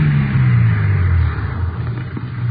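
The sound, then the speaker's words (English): A car engine on a dirt road outside Santa Maria gives a low, steady rumble that drops in level partway through as the car slows to a stop, with no voices. “Joe, that car. The car stopped here.”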